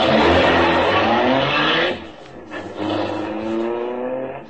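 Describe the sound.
A big car's engine roars as it drives and accelerates, a loud steady harmonic drone that dips briefly midway and then picks up again.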